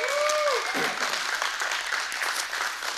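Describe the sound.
Applause from a church audience at the South Tillow campus, a dense, steady wash of many hands clapping that holds at an even level throughout.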